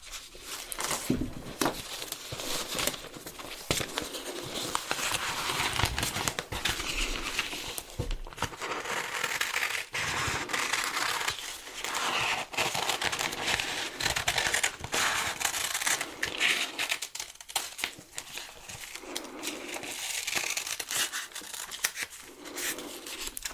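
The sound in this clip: Scissors cut out printed paper pieces in many quick, irregular snips, with papery rustling and crinkling running continuously at a moderate level.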